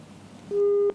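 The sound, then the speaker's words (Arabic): A phone line tone after a call disconnects: a single steady, mid-pitched electronic beep of about half a second that starts abruptly out of a faint low murmur and cuts off just as suddenly. “انقطع الاتصال مع حمود.”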